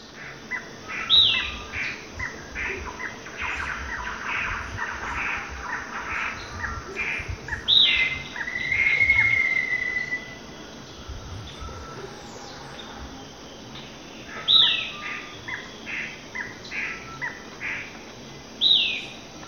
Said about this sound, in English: Six, with gray ant bird, thrush-like wren, black-faced ant thrush, and others.